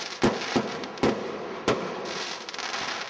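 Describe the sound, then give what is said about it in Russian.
Celebratory fireworks bursting in the sky after dark: four sharp bangs come at uneven intervals over a continuous crackling hiss, followed by a quicker flurry of smaller pops. “А с наступлением темноты в небо взлетели тысячи огоньков салюта.”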